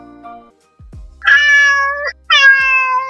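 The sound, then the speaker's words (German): A pet cat meows twice, each a long, drawn-out harmonic call held at a fairly steady pitch and loud, after a brief faint tonal sound and a few low thumps. “das ist meine Katze Lotta”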